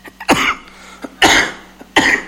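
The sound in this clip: Three harsh coughs, each a loud burst with a rough, airy tail, spaced roughly a second apart with quiet gaps between them.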